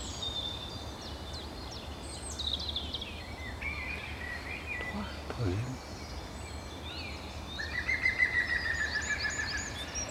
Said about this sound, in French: Oh, notre pic vert.